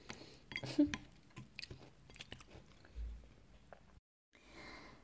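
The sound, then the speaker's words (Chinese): Someone chews a meal, with soft biting and crunching as food is eaten. Several quiet, irregular chews come in close succession, then a brief pause and a last muffled bit of chewing. “吃饭。嗯，多吃点。好吃吧？”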